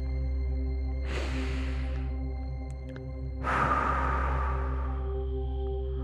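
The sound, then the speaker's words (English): Deep breath drawn in through the nose and let out through the mouth during a guided yoga meditation with hands in prayer position: two soft, airy rushes, the second longer and fuller, over a steady low hum. “we will breathe in through the nose and out through the mouth. Breathe in deeply.”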